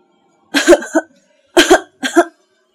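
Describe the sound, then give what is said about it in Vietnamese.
Harsh coughing from a woman choking on medicine: three rough, throaty bursts split by short pauses, loud and alone. “Cô bị sặc đến tối tăm mặt mày, ho rũ rượi đến chảy nước mắt.”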